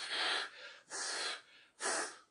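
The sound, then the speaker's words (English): Breath blown out onto a cupped hand held in front of the face, heard as three soft, airy whooshes of about half a second each, separated by short pauses, with no talking. “if you can just cup your hand in front of your face and just breathe on it.”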